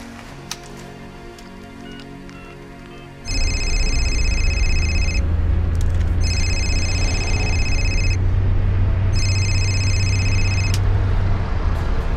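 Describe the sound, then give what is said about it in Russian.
A telephone rings in three evenly spaced bursts of a high, bright electronic tone. A steady low hum runs underneath throughout. “Звонит Саша.”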